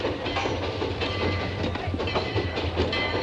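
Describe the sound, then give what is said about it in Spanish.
A steam locomotive carrying two men rolls up to where the rails end at the edge of New Spain, with a steady low rumble and rhythmic rattling from the wheels on the track. “La locomotora con los dos hombres llega a la linde de Nueva España, donde terminan los raíles.”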